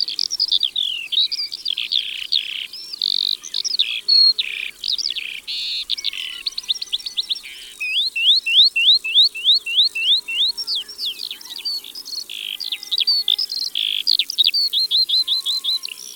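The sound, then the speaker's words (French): Eurasian skylark singing in flight above meadows: a long, unbroken stream of rapid, high, sharp chirps, trills and repeated whistled notes pouring out loudly for the whole stretch, with no voices. “C'est vrai, l'alouette des champs aime chanter en volant au-dessus des prés. La voici.”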